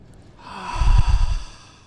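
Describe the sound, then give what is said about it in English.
A single slow exhale through the mouth during a calming breathing exercise: a soft, airy rush that swells and then fades over about a second, with no talking. “Breathe out through your mouth.”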